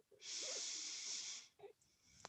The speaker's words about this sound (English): low push up, we'll breathe out, and breathe in,